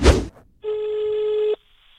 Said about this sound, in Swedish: Det är dags för mig att ringa en vän och leka Lenin eller McCartney.